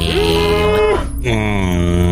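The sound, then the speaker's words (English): A young cow moos in a video game: two drawn-out, tonal lowing calls separated by a short break, loud and clear over a steady background tone. “I have spotted a young cow. And then let's go get that cow.”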